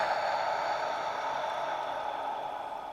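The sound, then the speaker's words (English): A long, steady exhale through a breathwork exercise, heard as a soft, even breathy hiss that runs without a break and slowly fades toward the end. “Little hold at the top. Exhale.”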